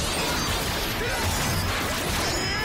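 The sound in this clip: Sword attack effects for a Spin Sword Quintuple Slash in a Power Rangers video game: a dense, loud burst of crashing, swishing impact noise that holds steady for the whole stretch with no pauses.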